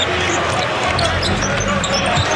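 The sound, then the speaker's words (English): Basketball dribbling on the court during a professional game, the bounces blurred under steady loud arena crowd noise with no clear separate thumps. “head down on the dribble”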